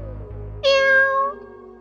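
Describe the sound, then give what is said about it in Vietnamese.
A red-eyed cat gives a single clear, loud meow lasting under a second, with a bright, slightly falling tone. A low, faint hum comes just before it, and near-silence follows. “Triển Chiêu đưa mắt nhìn, phát hiện một con mèo mắt đỏ đang ngồi cạnh mình.”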